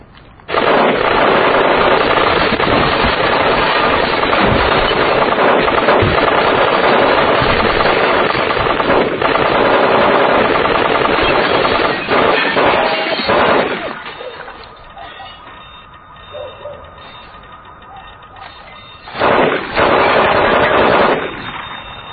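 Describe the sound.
Automatic gunfire rattles in a loud, unbroken stream for about thirteen seconds, then drops to a quieter stretch before another short, loud burst breaks out near the end.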